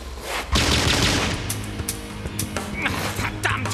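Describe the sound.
Machine gun fire opens with a loud, sudden burst, then continues as scattered rapid sharp cracks over a rumbling low background.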